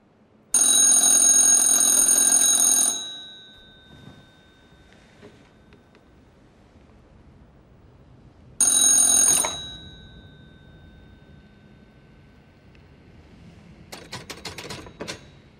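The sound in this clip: A telephone rings loudly in two bursts, the first lasting a few seconds and the second shorter, each cutting off into near silence, with a faint clatter near the end.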